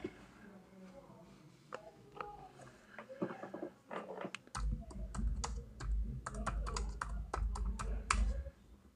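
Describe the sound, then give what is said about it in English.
Keys clatter on a computer keyboard as a Google search for full lace wigs is typed, many quick light taps mixed with clicks while a person talks over them. “go to Google, type in full lace wigs. Here, let me walk you through it.”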